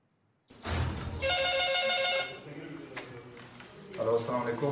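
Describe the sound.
A telephone rings at an emergency medical rescue service in Quetta, giving one short, steady electronic burst, and voices follow it.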